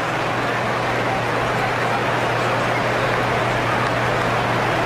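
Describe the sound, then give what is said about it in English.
Rain pours steadily over a baseball game, a constant dense hiss with a low steady hum underneath, unbroken and fairly loud throughout. “And the rain just keeps coming more and more.”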